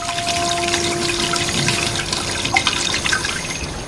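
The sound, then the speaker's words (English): A tap spews a torrent of water that starts dark brown and then clears: a loud, steady rushing gush that holds constant throughout, with a faint tonal whine running underneath. “the tap spews out a torrent of water which starts off dark brown but then clears”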